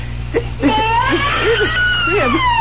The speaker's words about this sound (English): tell me you hear what I hear. A baby crying right here in this crib.